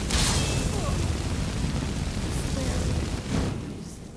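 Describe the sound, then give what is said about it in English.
Fire spell blast in a fantasy video game, cast at two enemies: a loud, sustained roaring whoosh that fills the whole stretch, swelling briefly near the end before easing off. “I'm gonna blast them with fire.”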